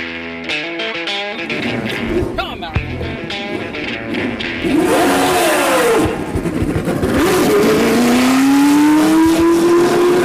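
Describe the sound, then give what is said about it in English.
A black and gold 1978-79 Lotus race car fires up on a track at a ribbon-cutting ceremony, its engine barking and revving in loud bursts, with pitch sweeping up and down through several climbs before holding a steady high drone. “that was Mario Andretti's 78-79 black and gold Lotus firing up on the track at Circuit of the Americas”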